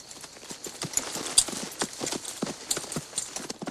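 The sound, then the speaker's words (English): Hooves of a ridden brown, speckled horse clip-clopping: many quick, crisp hoof strikes in a steady, loping rhythm, moderately loud with no talking. “pulls his reins and heads his brown, speckled horse away.”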